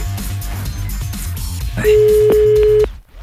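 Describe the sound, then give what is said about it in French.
A telephone tone sounds on an outgoing call to Namur: one loud, steady, mid-pitched tone holds for about a second, then cuts off abruptly. “Bon, allez, on y va, on appelle maintenant, c'est parti.”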